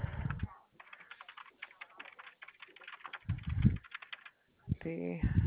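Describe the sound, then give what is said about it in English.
Computer keyboard typing comes in rapid bursts of many light clicks. A short stretch of talk interrupts it, and a voice speaks again at the end. “Give me just a moment to get that typed up.”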